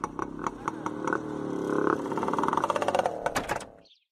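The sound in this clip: Motorbike engine while riding three laps around and stopping back in front of a house, a steady mid-pitched drone with rattling clatter that swells slightly, then cuts off near the end.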